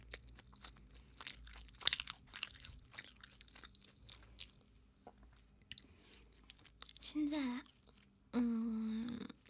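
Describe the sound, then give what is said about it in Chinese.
Crunchy chewing and biting of food during a meal: a cluster of brief, crackling bites and munches, followed later by a couple of steadier tonal sounds. “我在吃饭的”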